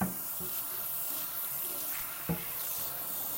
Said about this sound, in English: Rinsing my cutting board.